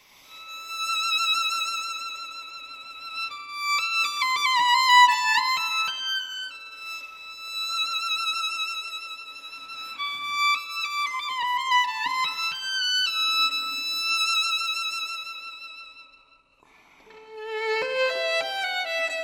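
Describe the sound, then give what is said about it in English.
A solo violin plays a lyrical, unaccompanied melody live in a studio. Sustained notes carry warm vibrato through phrases that rise and fall, with a brief pause before the last phrase. “I sat down in the concertmaster's seat and played, you know, Scheherazade and the beautiful melody from that, which, you know, sounds like this.”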